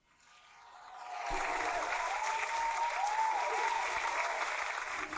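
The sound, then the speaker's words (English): Applause sound effect from a phone soundboard app, a sustained crowd clapping that swells over the first second and then holds steady and full until the end. “That's right, we're in front of a live studio audience today. No, we're not. I downloaded an app with a little soundboard on my phone, so it's not actually in front of a studio audience.”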